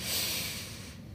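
A deep inhale through the nose during a guided gratitude breathing exercise: one steady, airy rush of breath, fairly faint and heard alone, easing off toward the end.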